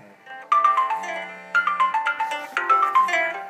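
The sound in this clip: A phone ringtone plays a loud, bright electronic melody, repeating its phrase about three times with no one talking.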